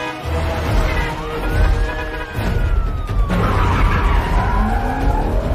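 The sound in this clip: A car drifting through a park and onto a road during a police chase, its tyres skidding in a loud, sustained screech that climbs in pitch and then slowly sinks, over a heavy roar of engine and road noise.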